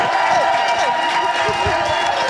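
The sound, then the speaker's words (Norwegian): A crowd cheers and applauds at a restaurant award ceremony in Bekkjarvik, Austevoll, as the restaurant receives its first star, a dense, continuous roar of voices and clapping that stays loud throughout. “Jubel var det også I Bekkjærvik I Austevoll da restauranten Mirabel fikk sin første stjerne.”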